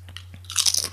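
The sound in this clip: Pizza-flavoured crisps crunch as they are bitten and chewed. A few light, crisp snaps lead into a louder, dense burst of crackling crunches over a faint, steady low hum.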